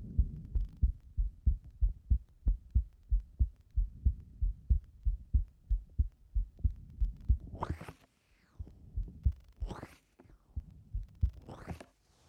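A heartbeat with a slight flowing murmur. Many soft, low thumps beat in a steady, quick rhythm, then a few louder rushing swishes sound over fainter beats.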